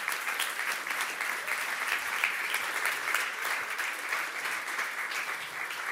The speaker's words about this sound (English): I'd love you to put your hands together and welcome them up.